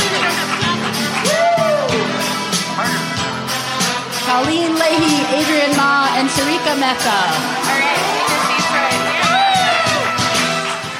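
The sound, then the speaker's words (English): Crowd cheering and whooping to welcome the pitchers onstage at a pitch competition, a loud, continuous swell of many voices with high whoops and shouts rising above it throughout. “our pitchers are really the ones who are feeling the nerves most, so we want you all to give them a warm welcome. Come on down.”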